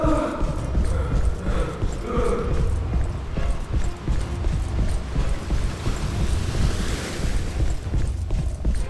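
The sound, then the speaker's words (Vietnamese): Bare feet pound across a wooden floor during a frantic chase, a rapid run of many heavy, irregular thuds at a steady, fairly loud level. “Tiếng bước chân trần nện trên sàn nhà lợp cợp.”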